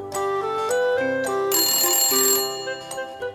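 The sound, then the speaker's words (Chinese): An apartment telephone with a handset rings with a melodic electronic ringtone: a loud, continuous run of shifting musical notes that brightens in the middle, with no talk over it. “哇，电话响了”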